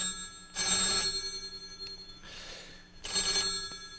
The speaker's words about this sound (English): I think we have a caller.